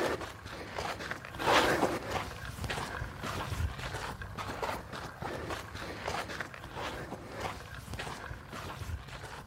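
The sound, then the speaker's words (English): Footsteps of people walking back, a steady series of many soft, scuffing steps over constant background noise. “Should we start walking back? Yeah.”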